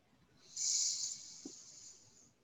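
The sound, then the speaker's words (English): A deep breath drawn in during a guided breathing exercise: one long, steady, airy hiss of inhaled air lasting about two seconds, loudest at the start and slowly fading, with no talk over it. “Take a deep inhale, breathe in.”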